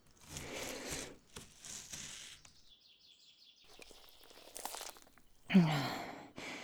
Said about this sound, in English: Now, let's see how good this knife is at cutting through bone.